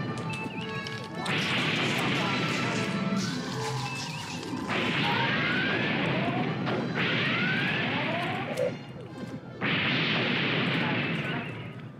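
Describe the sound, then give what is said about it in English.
Starship phasers firing in a bridge-crew video game: loud, sustained bursts of crackling, sweeping energy blasts, about four long volleys in succession with short gaps between them. “Let's go ahead and blast them. Shields up. Right. Flip out of shields. Yep. And phasers.”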